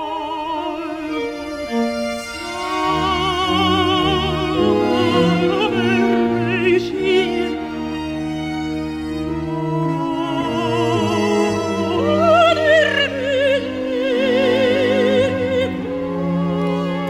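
Classical music from a film soundtrack: a high, vibrato-rich melodic line rises and falls over sustained orchestral accompaniment and low bass notes, full and steady throughout.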